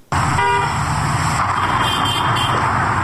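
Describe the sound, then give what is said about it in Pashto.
Busy city street traffic in Kabul, with cars and trucks moving through market areas, forms a loud, steady roar, and a car horn toots briefly near the start. “په بازارونو کې تګ راتګ ډېر دی، پلورنځي بیرته دي او موټر هرې خوا ته ځي او راځي.”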